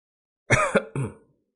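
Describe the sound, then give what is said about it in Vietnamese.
A man coughs up blood in three quick, harsh, throaty bursts, the last slightly drawn out and trailing off, heard on its own. “Diệp Phàm ho ra một búng máu, nhẹ nhàng dùng một cái chiếc khăn trắng lau miệng.”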